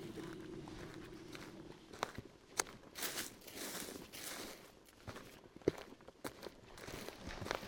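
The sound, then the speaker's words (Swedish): Footsteps walk along a trail on an island, a steady series of soft crunching steps with a few sharper, louder footfalls standing out. The sound is faint throughout. “Vi är på väg mot Svartglo. Vi går på leden här.”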